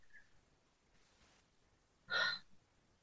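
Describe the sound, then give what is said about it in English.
One deep breath is drawn in as a short, sharp, airy gasp that stands out against near silence. “Just took a deep breath. I felt like my chest open as you were talking, like this spaciousness.”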